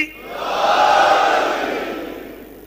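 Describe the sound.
A crowd roars in unison answering the Naara-e-Haidari chant, a broad mass of voices that swells to a peak in the middle and then slowly fades away.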